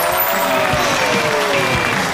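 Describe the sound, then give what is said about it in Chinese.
Sustained, dense studio-audience applause welcomes a famous actor as he is introduced as the show's guest. It is loud and steady throughout, a thick wash of many hands clapping with no break. “有请我们今天嘉宾著名演员董春辉，掌声有请。”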